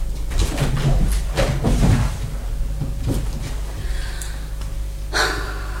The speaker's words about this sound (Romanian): Aerul e cam închis. Se deschid o fereastră.